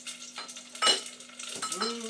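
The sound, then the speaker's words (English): Chicken frying in a pan, with short bursts of hissing sizzle as pieces hit the hot fat, mixed with light clinks and knocks of utensils and cookware. “Let's put the chicken in.”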